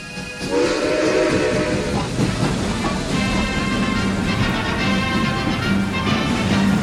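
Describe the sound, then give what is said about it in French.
A train from Budapest arriving at Paris Gare de l'Est: a loud, continuous rumble of rolling cars with sustained whistle-like tones over it, starting abruptly and holding steady, with no voices. “Paris, gare de l'Est. Un train arrive de Budapest”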